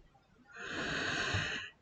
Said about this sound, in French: Respiration.